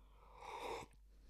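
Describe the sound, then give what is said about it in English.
A single sip of green tea sweetened with honey and topped with oat milk: a short, airy slurping rush that swells and cuts off, followed by a faint click. “Let me take another sip of this tea. It's actually quite delicious.”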